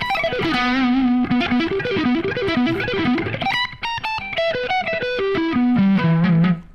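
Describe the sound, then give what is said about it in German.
Heavily distorted electric guitar on a high-gain vintage shred setting plays fast, loud melodic runs of sustained notes, climbing higher midway before settling back into lower wavering notes, with no other sounds. “Eher ein bisschen mehr Gain. Verzerrung. ja, vielleicht die Verzerrung. Schade. Vintage Shred. Ja, das ist ein guter Vintage-Shred-Sound tatsächlich.”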